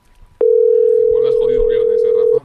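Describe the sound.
A phone call rings out unanswered. A single loud, steady, mid-pitched tone starts abruptly, holds for about two seconds and cuts off, with people talking faintly beneath it.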